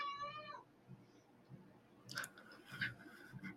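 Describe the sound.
A cat at its owner's feet meows for attention: one drawn-out meow at the start, followed by quieter scuffing and small clicking noises. No voices.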